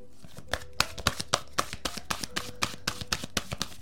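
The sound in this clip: Oracle cards are shuffled and drawn, making many sharp, papery snaps in a quick, steady rhythm alongside a voice.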